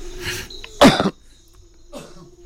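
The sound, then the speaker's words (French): A person coughs in a few harsh, throaty bursts, the middle one the loudest and longest, with the first and last fainter and no talk around them. “Pardon, je tousse.”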